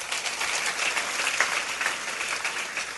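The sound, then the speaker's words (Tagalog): A church audience applauding during a worship service: broad, continuous clapping that stays even throughout, with no speech over it. “Palakpakan mo na si Lord.”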